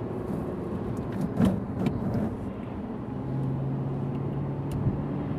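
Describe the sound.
A car driving along a road with a 100 km/h limit as it speeds up, a steady rumbling road noise inside the car, with a low engine hum coming through midway.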